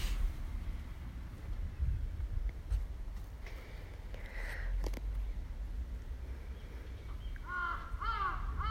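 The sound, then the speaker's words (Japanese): Crow cawing: a few harsh, raspy caws come near the end over a steady bed of wind and low rumbling noise. “カラス鳴いてる。”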